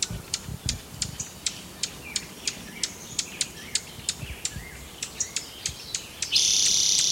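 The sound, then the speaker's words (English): Juncos call near their nest with many sharp, high chirps repeating at a quick, fairly even rhythm, joined near the end by a loud, steady high buzzing hiss. “Must be near a junco nest.”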